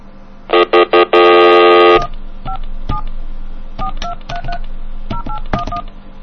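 Touch-tone telephone dialing opens with a few loud, buzzy bursts, then many quick dual-tone beeps. The beeps come in uneven clusters with short gaps and stand alone over a low steady hum.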